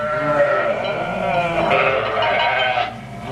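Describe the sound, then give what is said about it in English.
Sheep flock bleating: many overlapping, wavering bleats blend into a loud, continuous chorus that runs without pause and eases off slightly near the end. “I guess that's why a shepherd loves his flock and takes care of them so carefully.”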